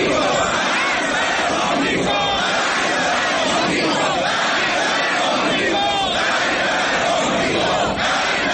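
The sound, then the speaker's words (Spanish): Street crowd in Tehran chanting 'Death to America', a dense, loud roar of many voices shouting together. The massed chanting is continuous and rough, without pause, across the whole stretch. “Inmediatamente se vieron movilizaciones en Teherán, y luego del resto del viernes se escuchó en las calles: ¡Muerte a Amer!”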